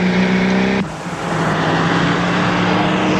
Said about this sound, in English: Someone tries to stop Tracy, but she speeds onto the highway.